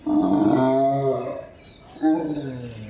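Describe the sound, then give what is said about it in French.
A gelada baboon yawns aloud in a zoo, giving two drawn-out, roar-like voiced calls. The first is longer and fades out, and after a short pause a second, briefer call follows. The calls are loud and heard alone. “de nombreux babouins Gélada sont maintenus en captivité. Il est important de noter que les sons ont été enregistrés au sein même de ce zoo. Il s'agit soit de bâillements de congénères comme celui-ci,”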